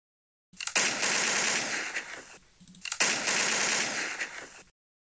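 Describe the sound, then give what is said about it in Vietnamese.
Machine-gun fire sound effect: two long, dense bursts of rapid shots with a brief pause between them, loud and unbroken, with no voices. “Đạn vẫn nã như mưa”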